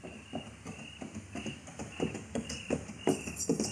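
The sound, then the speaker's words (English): Steady clip-clop of hooves from a horse walking with a body tied across its saddle, led on foot by a man. Many even hoofbeats fall in a plodding rhythm, fairly faint, with no voices. “It's not a pack horse. There's a body tied across the saddle, and that's Andy leading it.”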